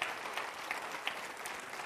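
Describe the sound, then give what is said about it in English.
A church audience applauding, giving the Lord a clap offering. The clapping is faint, dense and steady, a continuous patter with no voices over it. “Give the Lord another good clap offer. Would you do that?”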